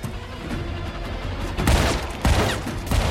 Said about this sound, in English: Hank dives for cover as Miles blazes away from inside the trunk. Rounds hit the cruiser in showers of sparks